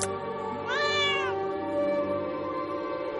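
A cat on a dark residential street gives a single clear, drawn-out meow that rises and then falls in pitch, over a low, steady background hum.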